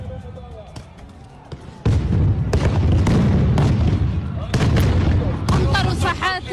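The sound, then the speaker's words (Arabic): Stun grenades going off inside the Qibli prayer hall of Al-Aqsa Mosque, a few loud, sharp blasts in quick succession over constant noise, with shouting voices among them. “كمان في داخل المصلى عم يطلقوا قنابل الصوت داخل المصلى القبلي.”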